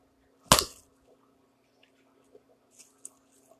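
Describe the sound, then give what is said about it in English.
A single sharp, loud slap as a man strikes his own arm to recreate a wrestling forearm strike, followed by near silence with a few faint small clicks. “Chucky comes back with three forearm strikes, and all you literally heard, and I'm going to try this as best as I can. It's probably going to hurt my arm a little bit, but I'm going to try my best to recreate the shot that Suzuki did. It goes like this.”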